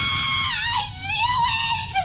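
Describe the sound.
A person's voice imitating a TV actress's scream: a sustained, high, wavering shriek with sliding pitch, loud and continuous for about two seconds.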